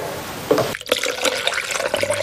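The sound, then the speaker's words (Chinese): Hot water poured and stirred into rice batter, a continuous liquid splashing and swirling sound with soft bubbling and a brief dip in the middle, moderately loud and without talk. “为了防止米浆沉淀形成团，需要不停搅拌并加入热水”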